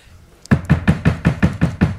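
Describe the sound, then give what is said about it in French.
Knocking on a door: a fast, steady run of many sharp, loud knocks at an even rhythm, with no talk over them. “Vas-y, frappe à la porte.”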